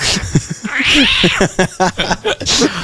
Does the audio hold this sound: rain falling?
no